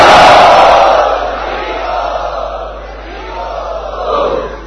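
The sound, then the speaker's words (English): A crowd at an ISKCON Chowpatty gathering loudly chants Hari Bol. The massed voices roar loudest at the start, then fade into a softer, sustained swell that rises again briefly near the end. “And so let us welcome them by loudly chanting Hari Bol.”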